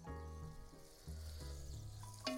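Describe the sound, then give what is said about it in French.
Garlic fries and caramelises in a cocotte, giving a steady, fairly quiet sizzle that carries on throughout. A low hum runs beneath it, and a brief louder crackle comes near the end. “Ça veut dire que ça commence à caraméliser. En même temps, ça n'a pas attaché dans ma cocotte. Mon ail est cuit.”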